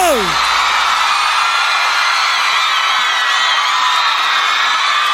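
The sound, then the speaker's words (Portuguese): An audience cheering and whooping, loud and sustained, with shouts blending into a continuous roar; a brief falling tone sounds at the very start. “salva de palmas pro Leonardo!”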